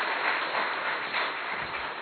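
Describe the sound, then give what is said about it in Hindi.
An audience at a spiritual talk clapping: a steady, dense wash of hand claps with no clear gaps, moderately loud and even for the whole stretch. “अरे बजा लीजिए ताली अपने लिए, आपके लिए कह रहा हूं”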